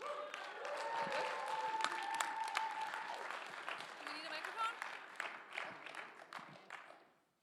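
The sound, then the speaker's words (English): Audience applause welcoming a group up front at a team training session, steady sustained clapping that eases off and fades out at the end. “Give these guys a hand.”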